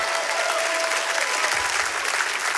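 A church audience applauds in praise, with dense, continuous clapping that stays at an even level through the whole clip.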